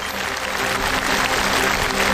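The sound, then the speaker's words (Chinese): Audience applause at a traditional Chinese opera show, welcoming four guest opera masters on stage: loud, dense clapping from a large crowd, steady and unbroken throughout. “首先让我们掌声欢迎四位知音推荐人，掌声有请北京曲剧名家许地老师”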